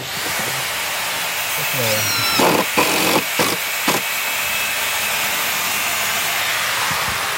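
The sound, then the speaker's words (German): Hammering and screwing while an open-air festival site is built beside a tennis court, with a few sharp knocks clustered mid-clip over a steady hissing background. “Es wird gehämmert und geschraubt neben dem Tennisplatz zu Bonaduz.”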